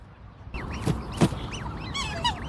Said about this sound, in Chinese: 你是什么时候开始喂养的黑天鹅？